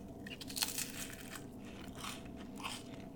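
Crunchy bites and chewing of a holiday crab dip from a seafood shop in Peoria, Illinois. The sound is faint and continuous, with a few sharper crunches and no talking.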